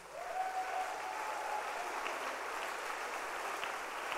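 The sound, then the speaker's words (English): A church audience claps for Jesus during worship, producing dense, steady clapping that holds at an even level for about four seconds. “Let's clap our hands for Jesus.”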